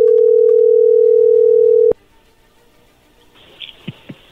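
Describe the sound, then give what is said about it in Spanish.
Telephone dial tone while a call is being dialed. A loud, steady, mid-pitched hum holds for about two seconds and cuts off abruptly, followed by near silence and then a few short, faint dialing blips. “ahí se está marcando”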